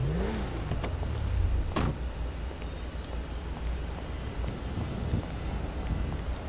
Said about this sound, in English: I'm gonna grab my Los Santos County car, SUV. Grab my sheriff SUV.